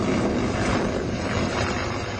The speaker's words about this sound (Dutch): Je kan het horen, het geluid is oorverdovend. En om het kwartier of half uur komt er weer eentje voorbij. Een helikopter of een vliegtuig.